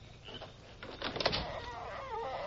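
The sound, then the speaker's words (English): A door creaks open with a drawn-out, wavering squeal that rises out of low background hiss, peaks briefly with a scraping, grinding texture, then trails off into a thinner whine. “And open the door.”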